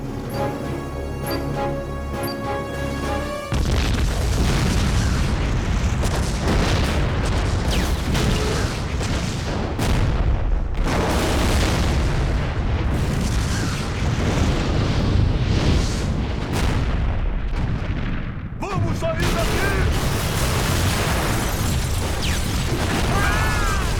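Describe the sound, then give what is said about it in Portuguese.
A huge explosion from an explosive set beneath an ammunition depot with gasoline: a sudden loud blast follows a brief tonal passage and swells into a long roaring rumble of fire and debris that barely lets up for about twenty seconds. “Eu programei um explosivo. Onde? Embaixo de nós. No depósito de munição. Gasolina.”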